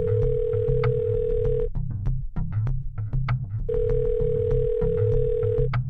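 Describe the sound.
Ringback tone of an outgoing telephone call: two long, steady buzzing tones, each lasting under two seconds, separated by a silent gap, over a low, busy background.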